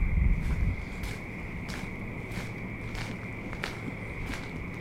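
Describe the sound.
Footsteps walking outdoors at night, a long run of steady, evenly spaced steps over a constant high-pitched tone and a low rumble at the start.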